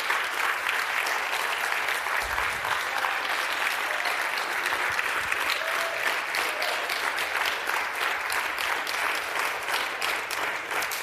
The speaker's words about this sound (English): Absolutely. Amen. Give him a round of applause.